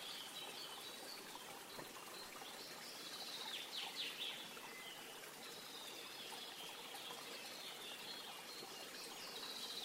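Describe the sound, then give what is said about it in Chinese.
A stream winds through a forest, its water trickling in a faint, even wash throughout, with a few light bird chirps scattered above the flow. “再一次将注意力带到小溪旁，小溪蜿蜒着一路穿过森林，”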